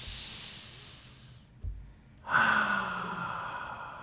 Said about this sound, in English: Let's take a good deep breath together.